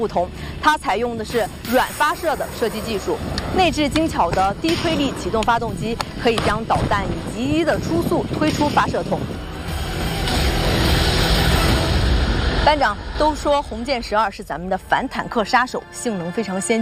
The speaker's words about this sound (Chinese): 导弹发射，那么在空中我看到了它的尾翼，现在导弹正在迅速的爬升，在空中进行了2次的点火，很快向下俯冲，命中目标。